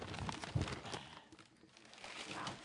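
Paper and tape crinkle and tear as a taped gift card is unwrapped, a dense, rough rustle that swells, eases briefly, then picks up again.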